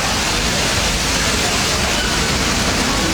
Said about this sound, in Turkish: AVM'nin otoparkını su basarken yürüyen merdivenlerden de yoğun şekilde su aktı.